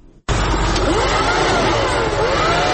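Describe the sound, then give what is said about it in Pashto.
A vacuum cleaner switches on abruptly after a brief quiet moment while cleaning dust and soil from a shop in Kandahar, then holds a loud, steady whooshing motor roar. “محمود د جارو ماشین په واسطه خپل دکان صفا کوي”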